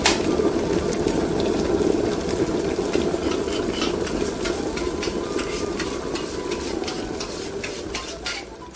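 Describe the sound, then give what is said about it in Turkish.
A spoon stirs a pot of yayla soup just after hot oil with mint, black pepper and chili flakes has gone in. A steady, even swishing scrape runs throughout, with faint clinks on top and no talking. “Sonra da yağı çorbaya koyalım ve çorbamızı karıştıralım.”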